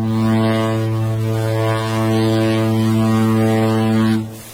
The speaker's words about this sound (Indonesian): Saat mesin kapal menderu lebih keras dan air di buritan mulai berbui putih